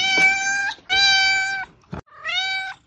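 A small kitten meows three times, high and clearly tonal, each call drawn out for over half a second, with a short soft knock between the second and third cries.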